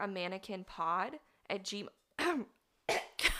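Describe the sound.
Coughing and throat clearing from someone with a cold: strained, voiced rasps come first, then several sharp, noisy coughs near the end, fairly loud with gaps between them.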